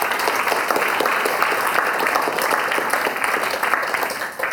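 An audience applauds to welcome panel guests at an opera discussion event, producing continuous, fairly loud clapping with a dense, even texture that holds throughout and dips slightly only near the close.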